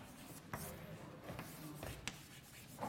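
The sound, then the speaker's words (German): Faint scratching and tapping of writing on a board during a university probability lecture, with a few sharp strokes standing out over a low, steady background. “Schreibe ich es nochmal aus.”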